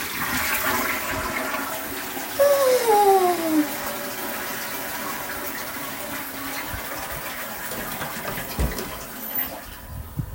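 A toilet flushes with a continuous rush of draining and refilling water that lasts the whole stretch. Early on, a louder surge carries whistling tones that slide downward in pitch, then the water settles into a steadier hiss.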